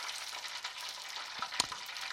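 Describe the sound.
Food frying in hot oil gives off a dense, steady crackling sizzle with a few sharper pops breaking through.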